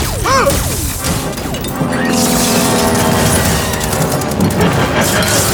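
Weapon fired in an alien war drama: loud crashing blasts with sweeping tonal zaps at the start, then a sustained rumbling roar of rapid impacts.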